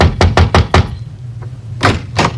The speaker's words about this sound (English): knocked on the door one night after a concert, dripping wet